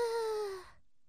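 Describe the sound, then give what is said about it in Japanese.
A single deep breath out, voiced as a drawn-out sigh during a calming breathing exercise. It is smooth and loud, with a gently falling tone over about half a second, then silence. “それじゃあいつもみたいに深呼吸だね。いくよー。”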